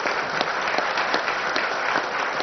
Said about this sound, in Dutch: Dan mag ik u alle drie van harte feliciteren met deze benoeming. Ik vraag u, u mag geklapt worden,